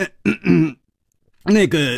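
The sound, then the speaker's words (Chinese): Dry coughs and throat clearing, voiced by a storyteller imitating a character in a Chinese martial-arts tale: a few short, throaty, voiced bursts in two clusters separated by a silent pause. “楚留香干咳了两声，笑着说”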